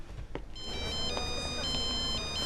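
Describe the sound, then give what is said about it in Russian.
A mobile phone rings in a shopping centre with a bright electronic ringtone. The steady, high, tonal pattern repeats without a break and stays loud over a low background hum. “У нее звонит мобильный.”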